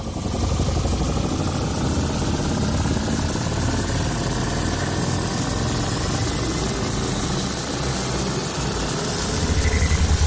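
A time machine landing sound effect: a loud, steady helicopter-like engine drone with a whirring rotor texture and a faint whine that climbs slowly in pitch, continuing alone with no talk.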